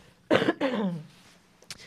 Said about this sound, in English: I need a cough, 1 second.